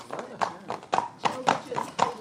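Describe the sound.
Hooves of Norwegian Fjord and Highland ponies clip-clop in a steady, even rhythm of many quick beats, with people talking over them.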